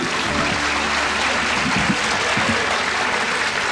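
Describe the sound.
Audience applause greets a performer of polyphonic art music at a stage show, a dense, steady wash of many hands clapping that holds at an even level throughout.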